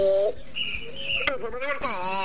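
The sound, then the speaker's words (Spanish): Small birds chirp in the background: several bright, high chirps and short tonal calls, fairly loud and overlapping, with a coo-like lower call among them. “Sí, acá están los pajaritos.”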